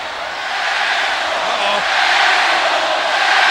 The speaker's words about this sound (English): The sold-out crowd here in Indianapolis calling Mr. McMahon an asshole.